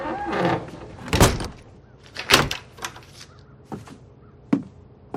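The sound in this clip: A door is shut by an old man on a doctor outside his property: two loud, heavy thuds, then a few lighter knocks and rattles with quiet gaps between them.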